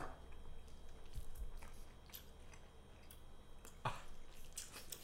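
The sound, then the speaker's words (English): Faint biting and chewing on a food heavily spiced with nutmeg and cloves: soft, moist squishing and mouth noises, with one sharper click near the end. “Alright, bite into the spice.”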